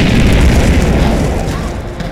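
A fiery explosion incinerating a home, a loud, deep roaring boom that swells at once and then rumbles and slowly fades over about two seconds.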